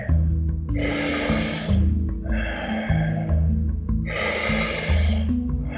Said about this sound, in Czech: Výdech.